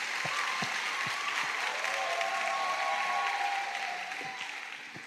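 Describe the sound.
A church audience claps their hands together during a sermon, a dense, steady round of applause with a few sharper claps standing out, easing slightly toward the end.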